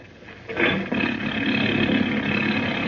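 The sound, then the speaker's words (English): A boat's motor is started, catching after a short moment and then settling into a steady, loud roar that holds to the end. “Give the motor a turn, will you”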